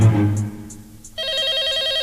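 A telephone rings while people wait beside it. After a quieter moment, a loud electronic warbling ring starts abruptly and continues steadily to the end.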